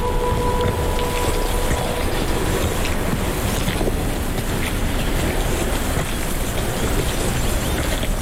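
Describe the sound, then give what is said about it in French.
Gravel rolls in the surf at the water's edge, making a continuous, dense rush of crackling and grinding that stays loud and even throughout, with no voices. “voici le roulement gravillonneux. Juste là, au bord de l'eau.”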